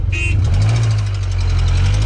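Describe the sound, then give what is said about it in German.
A car engine runs with a loud, low, steady rumble throughout, preceded by a brief high-pitched tone at the very start. “Egal ob gemütlich oder schon tiefig, Hauptsache der Motor, der ist schon gestartet.”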